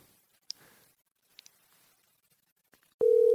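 A telephone call ringing out, with near silence and a few faint clicks before a steady electronic tone starts near the end and continues unbroken.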